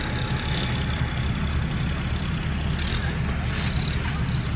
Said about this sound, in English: And they're driving away in this. That was a red Ford Explorer, right?